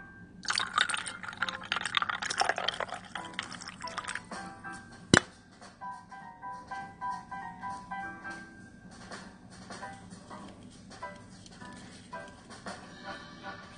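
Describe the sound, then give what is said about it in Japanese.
The last of a 350 ml can of Seiyu Minasama no Osumitsuki dry strong chuhai is poured in a frothy, splashing rush of about three and a half seconds. One sharp tap follows, then quieter irregular sounds. “350ミリの缶、残りを注いでしまいます。”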